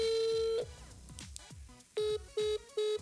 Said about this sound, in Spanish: Oh, oh, está ocupado. Oh, nos cortó, ya.